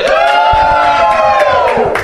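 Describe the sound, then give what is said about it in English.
Loud cheering and whooping from a live studio audience, a short burst of many excited voices shouting together, sustained for about two seconds. “And the live studio audience.”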